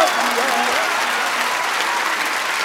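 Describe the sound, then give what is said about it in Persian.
A crowd claps hands in a dense, unbroken stream of applause, loud and even from start to finish with no pauses. “در حضرت زهرا اینجوری دست نزنی ها.”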